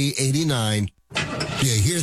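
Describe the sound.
A car engine struggles and breaks down, a brief rough sputtering burst lasting about a second, heard right after a short line of speech and a moment of silence.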